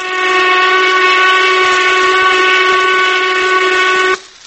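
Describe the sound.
A noon whistle blasts in one long, loud, steady tone, rich and reedy like a steam whistle. It holds unchanged for about four seconds, then cuts off abruptly.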